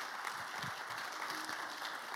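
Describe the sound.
A church audience applauds to welcome a speaker at a morning service; the clapping is faint and steady, a soft continuous patter with no individual claps standing out.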